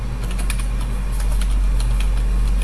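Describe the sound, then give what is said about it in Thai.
Typing text on a computer keyboard, many quick light key clicks in an uneven, steady stream over a constant low background hum. “พิมพ์ข้อความยาวๆไป”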